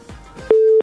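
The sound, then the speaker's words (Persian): A phone line's busy tone after a call from Khost drops: one loud, steady, mid-pitched beep lasting under half a second, with no talk. “متاسفانه که تماس وحید جان از خوست قطع شد”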